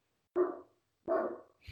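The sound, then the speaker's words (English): Dogs bark: two clear, mid-pitched barks about three-quarters of a second apart, then the start of another bark at the very end. The barks are moderately faint and heard alone. “now, and the dogs are barking.”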